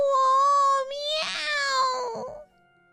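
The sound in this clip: A voice imitates a kitten meowing for help while trapped in vines: a drawn-out, high, wavering mew-like cry that breaks briefly and then trails off.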